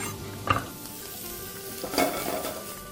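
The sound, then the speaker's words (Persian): Onion sizzles steadily as it fries in a pan while being stirred, with two distinct scraping strokes rising briefly above the constant hiss. “همین موقعی که هم پیازه بهش اضافه میکنم، یه خورده دیگه بهش میزنم.”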